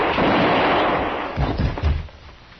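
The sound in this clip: A gunshot sound effect from a radio drama in which a marshal makes an arrest: a loud, sustained booming blast that slowly fades, then a few lower thumps.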